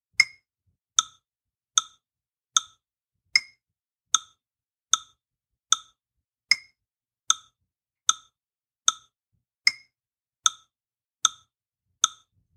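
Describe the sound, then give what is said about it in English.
A metronome app set to 76 beats per minute in 4-4 time ticks out sixteen sharp, bright clicks at an even, unhurried pace, each one short and crisp against silence. “Once you've downloaded a metronome app, I want you to set it at 76 beats per minute in 4-4 time. It'll sound something like this.”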